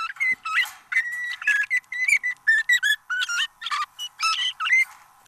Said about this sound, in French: Et c'est le cas, par exemple, ici de notre canari. Et oui, allez, on le réécoute juste pour le plaisir. Le canari avec.